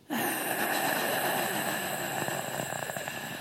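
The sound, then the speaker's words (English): A voice imitates a strangled gasp for breath: a sustained, loud, raspy inhale lasting about three seconds, turning rougher and more crackling toward the end. “she slowly squeezes his trachea so that all we hear, we don't see anything. We just kind of hear his breath go from silent to,”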